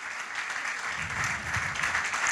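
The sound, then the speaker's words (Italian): An audience applauds at an evening event with a stage, a dense, continuous clatter of clapping hands that holds steady and fairly loud throughout. “con il vostro applauso”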